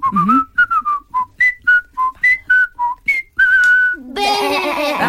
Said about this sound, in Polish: Tak, no więc gwizdałam dużo.